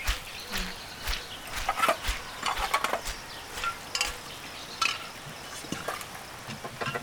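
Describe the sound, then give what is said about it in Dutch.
An old village hand water pump, stiff and in need of oil, is worked with many irregular creaks, clanks and scraping knocks in an uneven rhythm. No one speaks. “Het lijkt wel of die pomp elke dag zwaarder gaat.”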